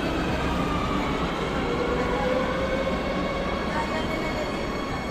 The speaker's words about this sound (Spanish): Para responder a las preguntas básicas sobre el contagio, bajamos al metro con José Antonio López Guerrero